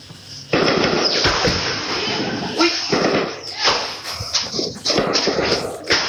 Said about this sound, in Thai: กล้องวงจรปิดหน้าบ้านหลังหนึ่งนะครับบันทึกเหตุการณ์ขณะที่กระสุนปืนจากการสู้รบในฝั่งเมียนมาครับตกใส่หลังคาบ้าน